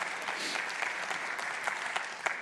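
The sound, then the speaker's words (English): A church audience clapping, with many hands producing a steady, dense patter of applause at moderate volume and no voices over it. “That's your response to God right there. It's clapping.”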